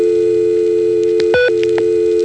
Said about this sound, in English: And that little tone there is a touchtone test.